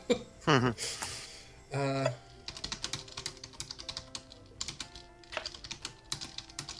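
Rapid typing on a computer keyboard, many quick clicks in irregular bursts that run on steadily after a few brief vocal sounds at the start.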